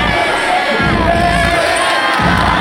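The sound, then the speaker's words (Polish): Belgian football fans cheer a World Cup win over the USA that sends their team to the quarter-finals, a dense, steady wall of crowd noise and shouting at constant loudness. “Na mundialu Belgia wygrywa z USA i melduje się w ćwierćfinale. Kibice zachwyceni.”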